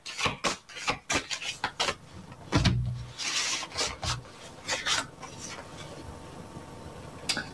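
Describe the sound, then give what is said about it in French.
An oracle card is shuffled and drawn from a deck: many crisp rasping rubs and papery flicks in an irregular rhythm, some sharper snaps among softer sliding, with no talking. “Je vais tirer une carte pour vous.”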